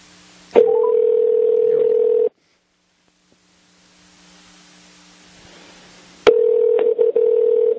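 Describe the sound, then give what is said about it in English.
Telephone dialing tones on a line calling out of state: a loud, steady dial tone breaks off into a stretch of low hiss, then returns, cut by a few brief blips. “All right, we're dialing.”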